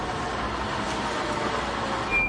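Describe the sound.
A vehicle motor runs with a steady, unbroken rumble and hiss at an even level from start to finish, with no talk over it.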